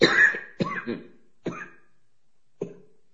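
Harsh, raspy coughing: a dense opening fit is followed by a few separate barks with gaps between them, each one fainter and shorter than the last.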